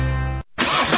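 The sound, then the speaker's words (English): Car engine starting: a steady low hum cuts out, and after a brief silence a loud, rough roar bursts in and holds to the end. “This is the sound of a car engine.”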